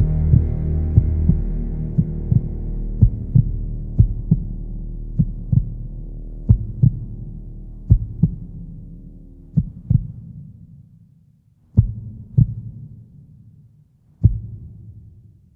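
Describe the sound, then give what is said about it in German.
A failing heartbeat pulse that grows weaker: many low, dull thumps over a deep droning hum that fades away. The beats slow and spread apart until only a few isolated thuds remain. “Ich fühlte ihren Puls. Er wurde immer schwächer.”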